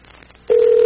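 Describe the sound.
A telephone dial tone while placing a phone call: after a quiet, faintly noisy stretch, a single steady mid-pitched tone starts abruptly and holds loud and unbroken to the end.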